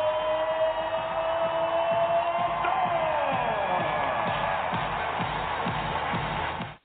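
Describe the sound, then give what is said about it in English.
A crowd roars at Climate Pledge Arena in downtown Seattle for the Seattle Storm, a sustained loud din with a tone gliding downward midway and steady rhythmic thumping through the second half, cutting off abruptly at the end. “So you could just hear the crowd. They were in a fever pitch at the Climate Pledge Arena in downtown Seattle.”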